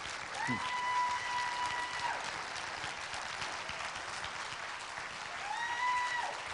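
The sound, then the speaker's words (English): An audience applauds to welcome a speaker, with steady, moderately loud clapping throughout and a few brief tonal cheers rising above it. “And give him a hand. We welcome.”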